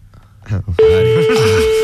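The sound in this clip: A telephone line sounding a steady single-pitched tone that cuts in abruptly after a moment of talk and carries on unbroken while voices speak over it.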